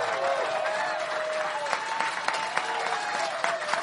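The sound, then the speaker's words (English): Standing ovation from an audience at a Barnes & Noble, dense applause holding at an even, fairly loud level throughout without a break. “A standing ovation from our audience at the Barnes & Noble.”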